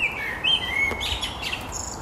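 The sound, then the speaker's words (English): A blackbird singing from atop a chimney cap. It gives a few clear, fluting whistled phrases, fairly faint over a steady background hiss. “There it is, the blackbird singing. Yep, right on top of the chimney cap. It's a blackbird.”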